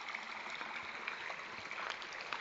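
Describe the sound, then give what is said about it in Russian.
A shallow mountain stream running low among boxwood after the glaciers have melted gives off a faint, even trickle and soft hiss of moving water, steady and unbroken throughout. “воды довольно мало. Говорят, что обычно здесь ее гораздо больше, но сейчас все ледники уже сошли, поэтому ручей довольно мелкий.”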